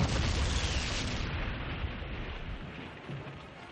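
A zeppelin airship crashes and explodes in flames in a broad, roaring rush of noise. It is loudest at the start and slowly dies away over a deep low rumble.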